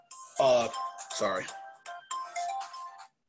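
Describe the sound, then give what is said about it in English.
A mobile phone's stock default ringtone plays: a bright electronic melody of short tonal phrases in a few bursts, with brief gaps between them. “I still have that goofy ringtone that came with the phone. That default ringtone.”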